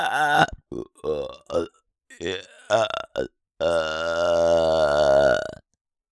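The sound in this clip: A long, loud burp rumbles for nearly two seconds after eating, preceded by a few short voiced bursts and breaths.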